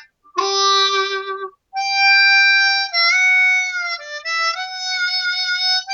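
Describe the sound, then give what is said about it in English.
A country tuned harmonica plays alone in bright, reedy tones: a short chord-like note, a brief pause, then a long sustained passage that shifts between notes. “Here's a country tuned harmonica.”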